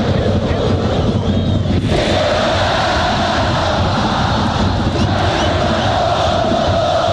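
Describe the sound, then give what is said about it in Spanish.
A football crowd roars during a Colo-Colo Copa Chile match at Santa Laura stadium. The dense, steady roar continues unbroken at a high level throughout. “Se siente la hinchada popular acá en la Catedral del Fútbol.”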